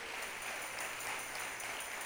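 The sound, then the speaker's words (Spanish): Faint applause from a church audience giving praise during a sermon, a soft, even patter of many hands clapping that continues steadily across the whole stretch. “¿Cuántos le dan un aplauso al Señor?”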